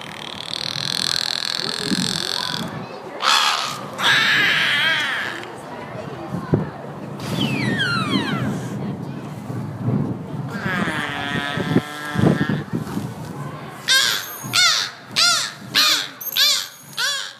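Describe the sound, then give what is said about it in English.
Beluga whales call at an aquarium in Mystic, Connecticut, trading squeaks, chirps, whistles and creaky croaks, ending in a series of rapid pulsed bursts, while visitors talk underneath. “So beluga whales. Whoa. Have you guys ever heard a whale before?”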